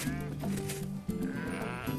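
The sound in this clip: Sheep bleating: shy, free-roaming animals kept outdoors rather than in a stall. Their wavering, overlapping bleats continue without a break and are fairly loud throughout.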